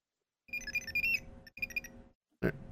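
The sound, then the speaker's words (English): Basic 90s-style electronic beeps: a few short runs of bright, high-pitched chirping tones over a low buzzing layer, with a short loud burst at the end. “They do a pretty good job with the just the basic, you know, 90s electronic beeps, making that sound like something.”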